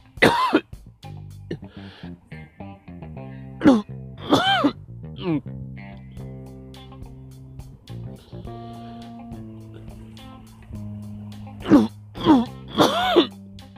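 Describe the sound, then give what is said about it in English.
A person's allergy-driven cough attack: harsh coughing bursts in the middle and a tight cluster of three near the end, with voiced groans and throat sounds in between. “every so often I get a cough attack, and what you just heard is it”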